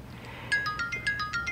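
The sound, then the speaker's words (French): Mobile phone ringtone for an incoming call: a quick run of bright, high, chiming melodic notes that starts abruptly and plays on briefly and fairly quietly. “Oh, prends-le, sinon il va rappeler trois fois.”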